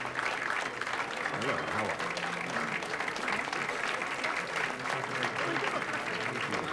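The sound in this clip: Admirers applaud a professor as he comes down a staircase, a dense and continuous patter of many hands at an even level, with a man's voice speaking over it.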